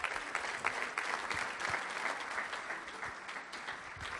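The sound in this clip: An audience applauding as guests are welcomed onto a stage: dense, even clapping from many hands that holds steady and fairly soft throughout.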